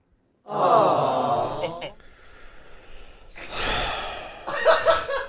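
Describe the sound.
A soundboard sigh effect plays a long, breathy exhale, followed after a pause by further airy, breathy noises.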